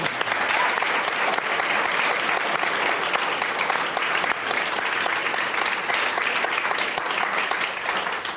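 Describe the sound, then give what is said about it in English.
Audience applause for speakers at a live climate-action event, loud and sustained, a dense even roar of many hands clapping that holds steady from start to end. “Let's give it up for these guys doing something really hard.”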